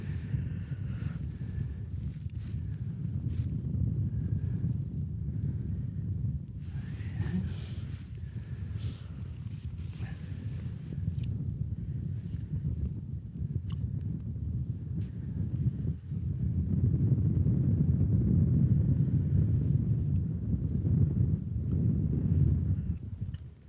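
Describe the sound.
Wind buffets the microphone while someone jigs for fish from a boat. A steady low rumble and roar runs through the whole clip and grows louder and denser in its final third.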